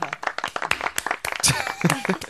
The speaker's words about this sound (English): Well, do you want us to applaud for them as well?